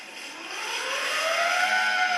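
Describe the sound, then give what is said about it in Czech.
An old-fashioned bicycle siren gives a continuous whirring wail that rises steadily in pitch and grows a little louder, heard alone with no talk. “Pak je tady siréna nebo sirénka, tak někdo říká.”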